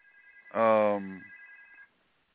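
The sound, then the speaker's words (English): A phone rings with a steady electronic tone of two even pitches that holds for under two seconds before cutting off. A brief voiced hum overlaps its middle. “who's calling me? I can't answer the phone because I'm with you guys.”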